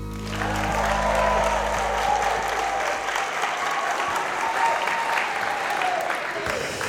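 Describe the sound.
A large audience applauds at Sankt Knuds Gymnasium in Odense, steady dense clapping that starts quickly and holds at an even level, with a low hum under the first few seconds.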